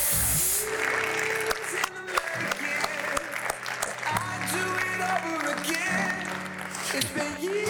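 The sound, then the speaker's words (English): An audience applauds at a keynote event, sustained, dense clapping that stays loud and even for the whole stretch. “Round of applause, please, everybody.”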